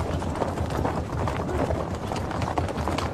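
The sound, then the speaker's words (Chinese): Hooves of horses ridden slowly by soldiers carrying red flags toward a temple: many clip-clops in a dense, steady stream at an even, fairly loud level throughout. “先遣连战士骑着马，举着红旗，慢慢靠近寺庙。”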